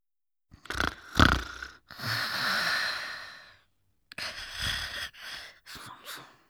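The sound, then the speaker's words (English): Sniffing: a series of breathy nasal inhalations, a few short sharp sniffs and one longer drawn-in breath, then several more short sniffs, each separated by brief silences. “Slurp. Sniff.”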